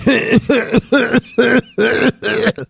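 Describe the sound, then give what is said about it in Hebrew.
A voice imitates a heavy smoker's cough with six loud, rasping, voiced hacking bursts in a steady rhythm, each separated by a short gap. “איזה שיעול כבד, איזה מסכנים האנשים האלה.”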